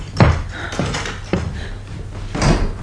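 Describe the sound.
A door is opened for a visitor in a radio drama, with a few dull thumps and clunks from the latch and wood, and a broader rustling swell near the end.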